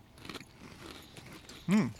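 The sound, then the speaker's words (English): Crunchy cereal with marshmallows being chewed: a few faint crunching bites, then a louder, fuller crunch near the end. “But you got the marshmallow. Right. Boy, that is crunchy. That's good and crunchy.”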